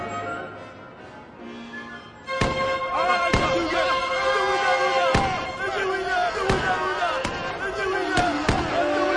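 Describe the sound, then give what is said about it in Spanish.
Several sharp gunshots in a Spanish-language audio drama, cracking out at irregular intervals over voices and a busy background. “Los derribaron a balazos.”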